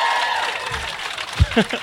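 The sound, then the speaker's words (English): Audience applause, a steady wash of clapping, with a voice briefly breaking through near the end. “But round of applause, Quail Man. Boom.”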